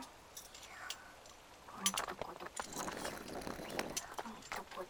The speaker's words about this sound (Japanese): そりゃ、水が、水しぶきがゆきさんを襲う。冷たい。